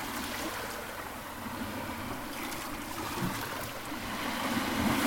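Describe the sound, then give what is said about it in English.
Someone paddles a boat on the sea near the shore, heard as a steady wash and slosh of water that swells slightly toward the end, with no distinct strokes standing out and no talk. “Paddling.”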